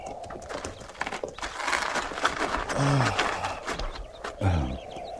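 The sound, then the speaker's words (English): Saddled horses are led down to a stream, their hooves clopping irregularly over a rough, busy background, with a couple of short, louder animal sounds. “Ease those cinches and lead the mounts down to the stream there in water.”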